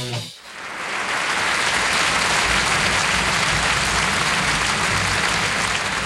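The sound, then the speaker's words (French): Audience applause for Robert Lamoureux: dense, steady clapping that swells quickly after a brief voice and stays loud and even for several seconds. “Voilà, on peut l'applaudir très fort, Robert Lamoureux.”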